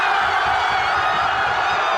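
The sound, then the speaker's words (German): Crowds in Spain erupt in cheering after the World Cup final whistle in Madrid, a dense, continuous roar of voices with scattered whoops, loud and unbroken throughout. “Dort ist natürlich nach dem Schlusspfiff der große Jubel ausgebrochen.”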